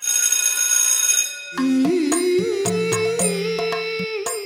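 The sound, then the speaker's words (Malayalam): An electric bell rings to signal the start of a stage play, a steady shrill ring lasting over a second, followed by other tonal sounds with sharp hits. “പ്രിയ കലാസ്നേഹികളെ അടുത്ത ബെല്ലോട് കൂടി നാടകം ആരംഭിക്കുന്നു”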